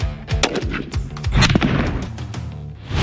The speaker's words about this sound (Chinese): 此时他正在对00后特战队员进行精准目标射击特训。